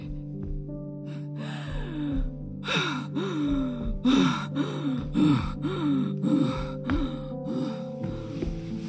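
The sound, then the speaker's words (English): A person pants out of breath after exertion inside a church, with many loud, rhythmic, voiced gasps and sighing exhales that come in quick succession. “I just need to catch my breath, take a seat.”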